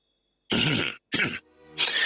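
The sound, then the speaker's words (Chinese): A man coughs in a few harsh, breathy bursts separated by short pauses, with a rough throaty rasp between them. “项梁咳嗽了一声道”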